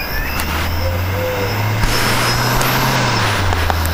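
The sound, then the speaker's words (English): A disc drive spins up while copying tracks, giving a steady low motor hum under constant broad hiss. The hum climbs slightly in pitch midway, then settles. “click on button 3, which is accept, and you'll hear the drive start to spin.”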